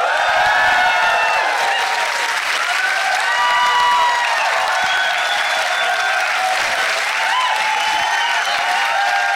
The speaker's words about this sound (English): Just as we rehearsed. Beautifully done. Can tick that off. It says here, audience goes wild.